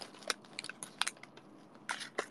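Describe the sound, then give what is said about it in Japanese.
A wafer snack being peeled open, with faint, crisp crackles and small crunchy ticks scattered irregularly across a quiet background. “ウェハースをめくる。”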